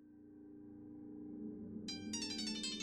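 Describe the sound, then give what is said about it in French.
A mobile phone ringtone playing the opening bars of a G minor concerto, a bright, high melodic phrase that cuts in partway through over a steady low tonal hum. “Le téléphone de Fred joue les premières mesures du concerto en sol mineur, sonnerie libre de droit”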